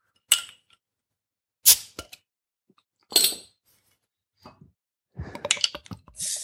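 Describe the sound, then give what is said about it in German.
A bottle of cloudy India Pale Ale being opened, with three sharp, separate clinks of cap and glass spaced evenly apart, then a busier stretch of small clicks and rustling handling noise at the end. “Also wir haben jetzt das Brauereitje Amsterdamse Indian Pale Ale. Ich öffne, ja?”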